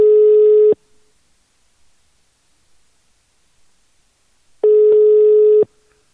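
Ringback tone of an outgoing phone call to Norway, two long, steady, buzzy tones about four seconds apart with near-silence between them.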